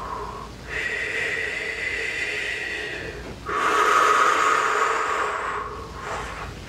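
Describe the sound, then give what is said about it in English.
A deep breath during a guided meditation: a loud, drawn-out airy inhale of about three seconds, then a stronger, rushing exhale of similar length, with a short softer breath trailing at the end. “Deep breath.”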